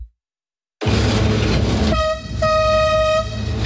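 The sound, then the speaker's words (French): Inside the driver's cab of the La Mure tourist train, built in 1888, a loud, steady engine and running rumble plays throughout, while a tonal horn blast cuts in partway through, breaks off briefly, then holds. “On entend beaucoup de bruit, c'est impressionnant une cabine de train comme ça. Effectivement, on a beaucoup de sons entre le bruit de la machine, le bruit des rails qui peut craquer un petit peu, le klaxon”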